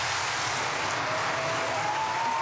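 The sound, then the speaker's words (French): A satisfied audience in a hall applauds at a political party congress, a continuous dense wash of clapping that stays fairly quiet and even from start to finish. “Des applaudissements d'une salle contente et comblée.”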